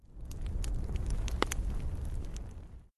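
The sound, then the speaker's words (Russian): Crackling of a burning-down log in a fireplace: a soft, steady rush with scattered sharp pops and snaps, one stronger crack near the middle, fading out abruptly. “Повисла пауза, в которой слышался только треск догорающего полена в камине”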